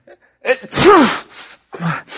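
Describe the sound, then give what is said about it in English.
A person with a cold sneezes: a quick in-breath builds into one loud, breathy burst, followed by a shorter, softer exhale sound. “You're coughing and sneezing a lot.”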